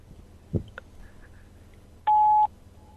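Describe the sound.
A voicemail recording beep: a single steady, fairly high tone lasting about half a second, sounding after a faint click over a quiet background.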